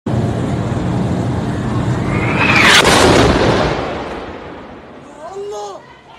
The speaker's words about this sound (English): That's the sound of explosions at the Al-Ahli Hospital in Gaza City